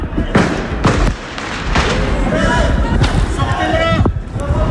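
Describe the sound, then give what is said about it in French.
Firework mortar shots and tear gas grenades fired during a street clash between helmeted police and teenagers. A few sharp, sudden bangs break through a constant loud din with shouting voices. “Tirs de mortier d'un côté, de lacrymos de l'autre. Il y a plusieurs échanges comme ça.”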